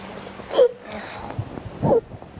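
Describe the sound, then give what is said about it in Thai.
A young child cries and sobs in two short, wailing bursts, with quieter catching breaths and whimpers between them. “เก่งมากหนูเก่งมากลูกหนูหยุดร้องให้หนูเก่งมากเลยไม่ต้องร้อง ลูกสะอื้น”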